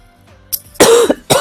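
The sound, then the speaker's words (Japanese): A child coughs a few times in quick, harsh bursts in an air-conditioned room, the coughs loud against a quiet background with no talk. “咳が出たね。ちょっと寒いか、冷房向こうもつけちゃったからね。”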